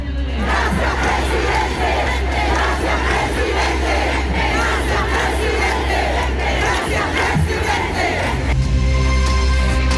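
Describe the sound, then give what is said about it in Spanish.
Supporters of Gabriel Boric chant loudly together at a rally, a dense, steady roar of many voices shouting in rhythm without a break. “un discurso, como lo decíamos, que duró casi 20 minutos y que tuvo acompañado de múltiples cánticos a favor de Gabriel Boric por parte de sus adherentes. Escuchemos parte del ambiente de ese momento.”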